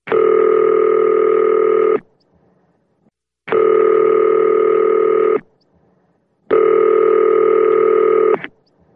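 Telephone ringing as a call rings through to voicemail: three long electronic rings, each about two seconds, separated by short silences, loud and steady with no voices.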